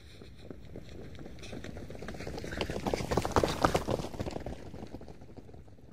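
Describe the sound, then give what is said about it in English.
A man in sports clothes runs as fast as he can through a gallery. Rapid running footsteps patter steadily, swell louder toward the middle, then ease off again. “A man wearing sports clothes running through the gallery as fast as he can? Oh, look. Now there's another runner.”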